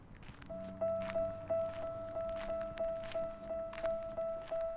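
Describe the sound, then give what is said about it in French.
Footsteps walk at the edge of a city in a steady, regular rhythm of many soft, faint steps. A constant thin tone runs alongside them. “je marche aux confins de la ville, je respire, marche, respire, marche”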